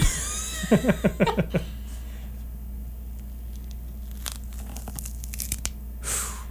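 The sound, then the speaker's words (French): Cutting on a plastic surface: a quick burst of crisp, crunchy strokes early on, then sparse scattered clicks and a soft brief hiss near the end, with no talk. “Et là, on se rappelle qu'on coupe sur du plastique, donc le son ne sera pas pareil chez vous.”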